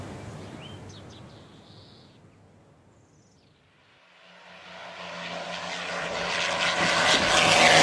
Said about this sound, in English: The pilot! He dipped his wings. He saw me. It must have been him.